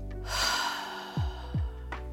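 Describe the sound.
A long, audible exhale comes during a guided breathing exercise. It is a breathy rush lasting nearly a second over a steady, soft tonal background, followed by two brief low thuds and a short, faint breath.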